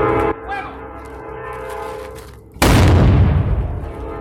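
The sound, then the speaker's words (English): A historic cannon fires during a living history day at a presidio museum: one sudden, very loud boom hits after a quieter opening stretch, then breaks into a long, rough, rumbling decay that fades slowly. “That was the sound of the cannon firing off at the Presidio Museum.”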